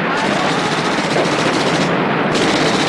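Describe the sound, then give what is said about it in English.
Machine gun fire bursts from the back of a World War II half-track charging into a village square at German soldiers, a relentless, loud, rapid stream of shots that continues without pause throughout. “In the back of the vehicle, Patuco gets to his feet and aims his machine gun.”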